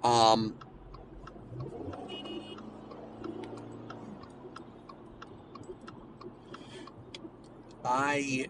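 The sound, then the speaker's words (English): Inside a car merging onto a highway, a steady, regular ticking runs over a low road rumble, while a person talks at the start and again at the end. “Bear with me, merging onto a highway, and for some reason no one knows how to drive today.”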